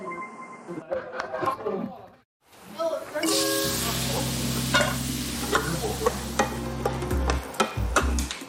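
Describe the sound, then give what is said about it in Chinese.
Tomato and scrambled eggs are stir-fried, setting off a loud, continuous sizzle with scraping and clicking from stirring. The sizzle starts after a brief quiet, and voices are heard before it. “他说他要做一个西红柿炒蛋，因为我刚刚炒的那盘菜你没有吃到，所以我准备再给你做一盘。”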